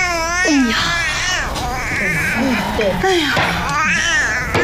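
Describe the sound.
An infant cries in loud, wavering bursts with sharply rising and falling pitch while a grandmother plays a tile game; voices mix in among the cries.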